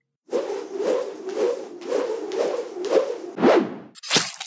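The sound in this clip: A harpoon made of rope and copper swung through the air in a rhythmic run of whooshing swishes, ending in a sharp whack as it hits someone.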